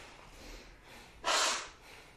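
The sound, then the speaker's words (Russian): Bhastrika bellows breathing during yoga meditation practice: faint steady breath noise, then one loud, forceful rushing breath through the nose lasting about half a second before it fades. “Тоже уже привыкайте к бхастрику дышать достаточно долго,”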